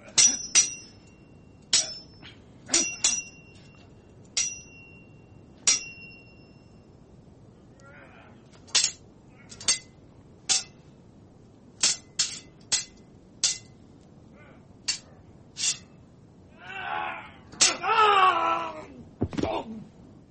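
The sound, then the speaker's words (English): Metallic sword ratcheting sound effect: many sharp, ringing clinks spaced irregularly, then a louder, longer rasping burst near the end. “What's my sword ratcheting sound effects? Here we go.”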